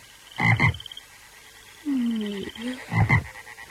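Frogs croak like a choir in a few raspy, pulsing bursts, with a smoother tonal call between them. The croaks are fairly loud and stand alone, with no talk.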